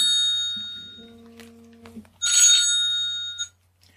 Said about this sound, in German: Jetzt kriege ich gerade einen Anruf vom Gesundheitsamt und mach mal eine kurze Pause, ja?